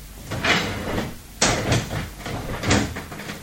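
Window shutters are being closed: three separate wooden knocks with scraping and rattling between them, each strike sharp at the start and fading into rustle.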